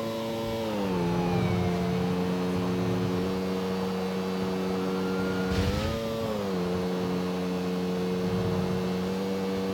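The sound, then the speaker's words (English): A motorbike engine in the video game GTA IV whines steadily at high revs, a sustained droning tone that briefly dips and then climbs back partway through, with no talk over it. “Listen to the bike whine.”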